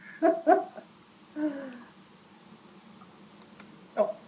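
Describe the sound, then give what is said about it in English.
A dog in the background gives a few short barks or whines, fairly loud against a quiet backdrop, with long gaps between them. “Sorry about the dog thing.”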